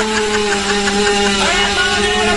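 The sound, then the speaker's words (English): A dirt bike motorcycle engine drones steadily after a kick start, a loud, continuous mechanical whine with a buzzing hum that holds even throughout. “Hey, Ma, Dad, look at my new motorbike. Hold on, let me kick start it here. I gotta get it. Hold on, I gotta get it started. There we go.”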